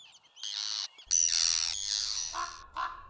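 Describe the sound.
Arctic tern calls: a few harsh, high-pitched screeching cries, the later ones shorter and lower, heard alone without any voices.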